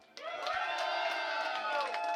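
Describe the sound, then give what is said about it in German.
A crowd at a dark metal concert breaks into cheering and clapping. It starts suddenly after a brief quiet moment and swells into a sustained, fairly steady mass of shouts, whoops and applause. “Und ich wünsche mir einen riesen Applaus an Gunther und das Dark Metal Asylum.”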